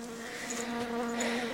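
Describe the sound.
Bees buzz in a hive set down on the ground, a steady, continuous droning hum of many insects with no voices over it.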